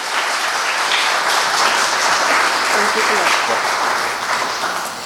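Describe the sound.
Audience applause welcoming a speaker to give a scripture reflection at a church service, a dense, steady wash of clapping that holds loud throughout and eases slightly near the end, with voices mixed in.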